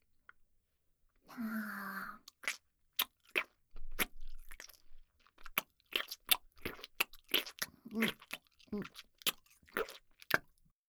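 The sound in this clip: Crunchy food is bitten and chewed, producing many sharp, crisp crunches in an irregular rhythm, quiet and close.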